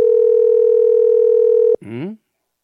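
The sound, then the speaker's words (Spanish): A telephone call tone while waiting for an answer: one steady, loud, unbroken tone that cuts off abruptly, followed by a brief burst of voice. “Pero espero que me responda la llamada telefónica.”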